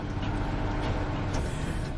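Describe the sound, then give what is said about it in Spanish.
A pickup truck drives along a potholed, bumpy road with another vehicle following behind. It makes a loud, continuous rumble of engine and road noise that stays steady throughout. “El vehículo se aleja. La camioneta circula por un camino con baches. Otro vehículo les sigue.”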